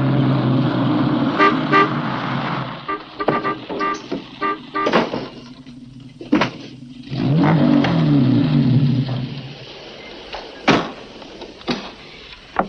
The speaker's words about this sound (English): then we have Terry Thomas enter the picture as he drives up in his wonderful, I think it was an MG.